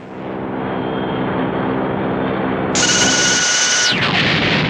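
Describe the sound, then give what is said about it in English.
A laser blast fired in a spaceship battle: a steady low humming drone runs throughout, then a bright, high-pitched tonal zap bursts in for about a second and ends in a quick downward sweep. “Stand by, laser blast. Fire now. Firing now. Direct hit.”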